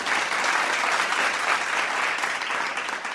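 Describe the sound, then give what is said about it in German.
Children clap together in a classroom, a steady, dense patter of many hands that holds at an even level for the whole stretch without pause. “Die Kinder klatschten”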